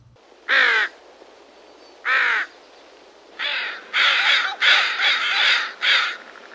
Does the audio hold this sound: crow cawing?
yes